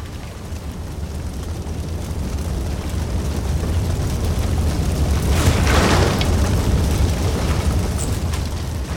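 Roaring blaze and blast as a ship is set alight with torches: a dense, continuous low roar with hissing noise that swells into a brighter rushing burst past the middle before settling back.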